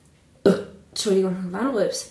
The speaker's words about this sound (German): Ja, du bist immer real, aber wenn eine Frau rülpst, dann ist das nicht mehr, dann ist das zu real, ne?